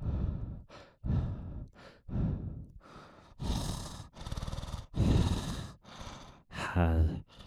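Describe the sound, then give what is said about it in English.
Heavy breathing close on a microphone: a rapid, irregular series of loud, noisy inhales and exhales with a sighing, gasping quality, a short pause between breaths. “it picks up my breath a lot more”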